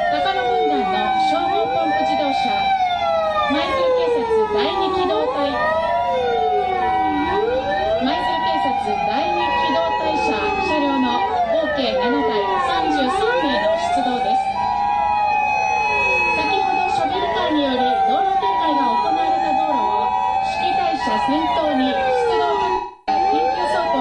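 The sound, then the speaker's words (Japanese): Wailing sirens from Maizuru city fire engines, a fire command car, a rescue truck and an ambulance arriving, several loud overlapping sirens sweeping up and down in pitch throughout, with a steady tone running underneath. “今消防車が2台 入 ってきましたね。 消防本部の指揮隊車、救助工作車、救急車です。”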